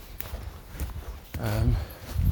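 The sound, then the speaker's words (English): Soft footfalls of a Labrador passing through wet woods, a few muffled thuds on damp ground, with a man's voice speaking briefly over them. “There goes Labrador. Better day today, I'm in the woods.”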